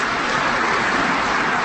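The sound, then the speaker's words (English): Audience applause at a speech: a dense, unbroken wash of clapping that holds a constant level, with no individual claps standing out. “Sure, applaud. Why not?”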